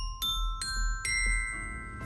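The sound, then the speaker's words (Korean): A ding-dong-daeng correct-answer chime sounds during a pronunciation quiz, a few bright bell-like tones struck one after another, each ringing on with clear sustained overtones above a low background hum. “아까 제가 했던 발음이 왜 딩동댕이 해줬던 거예요?”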